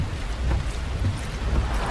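Steady rain heard from inside a car: a dense, continuous hiss with a low rumble underneath, unbroken throughout with no voices.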